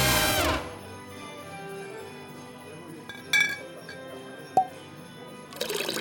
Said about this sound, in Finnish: Kaada, joo, lisää vaan, joo, anna mennä vaan. Vielä. Joo, kaada vaan. Just noin, hyvä.